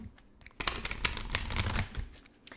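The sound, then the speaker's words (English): Playing cards are handled and one is drawn from a deck during a pick-a-card reading. A few sharp papery flicks and rustles come alone, moderately loud, with no talk. “I do want to pull one final card here”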